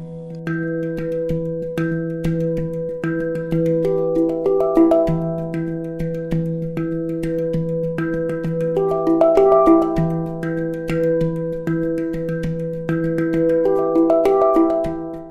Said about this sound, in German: man nennt diese Instrumente Handpans. Viele Leute nennen auch eine amerikanische Handpan Hung. Aber egal, wie man es auch nennt, das Besondere an dem Instrument ist bei allen ähnlich.